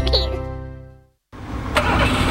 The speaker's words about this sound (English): Our Corolla hasn't been the same since they fitted those spark plugs.